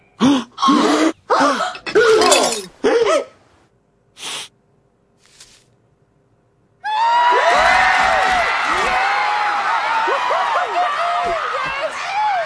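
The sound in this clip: A talk show audience breaks into loud, sustained cheering and shouting after a few short spoken phrases and a pause, with the crowd noise holding steady to the end.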